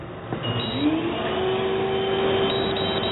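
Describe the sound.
A cryo sauna rapidly pushes out cold gas in a steady, loud hissing rush, with a faint whining tone that rises in pitch and then holds level.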